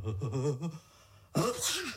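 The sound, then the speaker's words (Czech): One sneeze: a brief voiced sound comes first, then a sudden sharp, noisy burst with a short voiced tail. “Vlastně, kdo to kýchl? Bylo to tady nebo vedle?”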